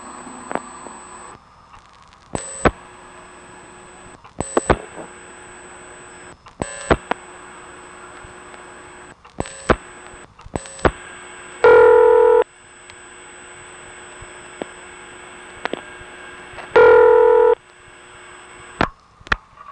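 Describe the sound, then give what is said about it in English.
A PBX telephone ring, halfway between a modern tone ring and a 701 step ring, captured on a tape recorder with automatic volume control: a thin steady tone, scattered short clicks, and two loud buzzing ring bursts several seconds apart. “So here's another call to that same ring. This time, the tape recorder didn't mess it up as badly.”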